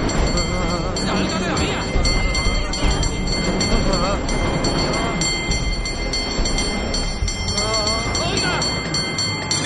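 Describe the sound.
A tram rumbles steadily as it approaches along tracks in the middle of a city street, a continuous low mechanical roll with metallic rail tones, while voices speak over it.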